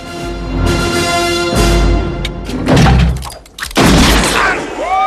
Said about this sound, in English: The kid shoots Goodson in the arm.